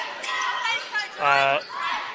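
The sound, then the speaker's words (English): A basketball is dribbled during a game between two academy teams, with a few bounces under continuous play-by-play commentary from a man. “trying to kind of dribble it out”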